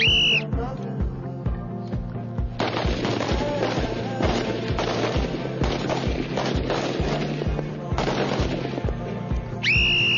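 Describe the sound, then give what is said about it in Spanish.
Many rifle shots crack in a rapid, overlapping volley during a shooting drill, a dense run of sharp reports, with a short whistle blast at the start and again at the end. “Municionamos, introducimos el cargador. Prepárense para hacer fuego.”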